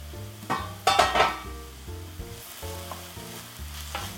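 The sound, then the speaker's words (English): Quiet sizzling of onion sweating in a pan, a soft steady fry with a few louder stirring scrapes and clinks early on. “You can also place the lid. That also helps to sweat the onion.”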